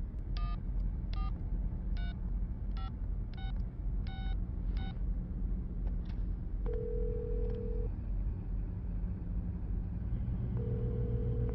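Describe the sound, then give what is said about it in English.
A telephone number is dialed as seven short touch-tone beeps in an even sequence over a low rumble, followed later by two longer steady tones. “Dial your number. Go ahead.”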